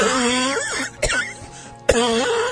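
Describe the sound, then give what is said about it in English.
A person coughs and chokes on something caught in the throat. Two sharp coughs break through strained, groaning vocal sounds. “Choking? I don't know what that is in my throat.”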